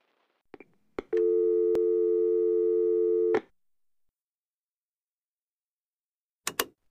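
A telephone call tone holds one steady, low, buzzing pitch for about two seconds. A few sharp clicks come just before it, and after a long silence a quick pair of clicks follows.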